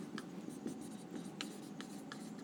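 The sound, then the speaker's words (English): Writing of a word in Arabic: a few short, scratchy strokes over a steady low hum, faint and with no talk. “I'll write it in Arabic for you as well. That's easier.”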